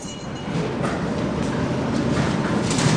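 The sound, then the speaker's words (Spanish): An underground metro train at a subway station gives a steady, dense rumble of wheels and motor noise that holds at an even level throughout, with no distinct clacks or pauses. “Subte, línea D. Estación Escalabrini Ortiz, eran las 11 de la mañana.”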